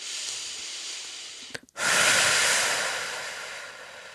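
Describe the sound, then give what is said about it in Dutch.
Slow breathing in and out during a relaxation exercise, heard as two long, airy hisses separated by a brief pause, the second breath swelling and then gently fading. “Adem maar rustig in en adem rustig uit.”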